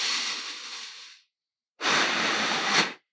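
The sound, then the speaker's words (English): Slow breathing through the nose during a mindfulness meditation breathing demonstration: two long, steady, airy hiss-like breaths separated by a brief silence. “keep the air going in and out through your nose, not from your mouth. Okay? So exhaling like this, I will demonstrate to you.”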